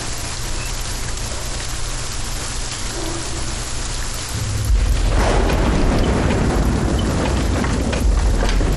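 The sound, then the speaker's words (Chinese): Steady rain falls with a dense, hissing patter that grows noticeably louder and heavier about halfway through and stays strong to the end. “天下雨”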